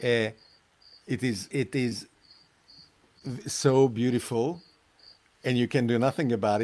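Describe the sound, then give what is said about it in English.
Crickets chirp at sunset near the equator, a faint, steady high pulsed trill repeating under people talking throughout. “We can hear the crickets chirping in the background as the sunset is arriving”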